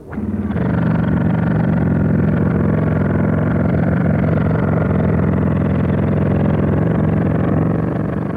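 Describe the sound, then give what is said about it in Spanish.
A plugged-in machine loaded with chorizo sausages starts up and runs, kicking in abruptly into a loud, steady, low droning hum that holds without letup. “Conectamos el enchufle. Vean ustedes, aquí hemos depositado algunos chorizos. Y ahora, en marcha.”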